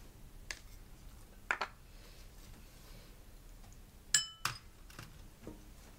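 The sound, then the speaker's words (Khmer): Firm vegetables are mixed in a bowl, giving a few sharp clinks of a utensil against the bowl, spaced by quiet pauses and two clustered near the middle. “យើងច្របល់បន្លែរឹងរឹងចូលគ្នាសិនបន្ទាប់មកទៀតគឺយើងដាក់ត្រសក់ចូលហើយនឹងពេញប៉ោះ”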